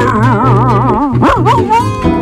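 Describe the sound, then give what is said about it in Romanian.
A dog sounds off at a vagrant woman with loud, drawn-out, wavering howl-like cries and a quick pulsing vibrato, broken midway by a few short, sharper yelps, with no talk over it. “Beethoven cum mai latră la femeia vagabondă”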